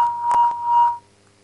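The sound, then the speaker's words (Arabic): An electronic beep alert for an incoming phone call: a steady mid-pitched tone lasting about a second and swelling twice in loudness, then cutting off to near silence. “طيب معلش جالنا اتصال تاني.”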